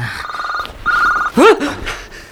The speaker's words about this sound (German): Dein Handy.